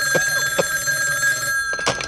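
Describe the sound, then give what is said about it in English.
A telephone in an office rings with a steady, sustained bell tone that holds throughout, interrupted by a few short, sharp bursts. “Even here in this office, the smog is so thick, I can't see the phone.”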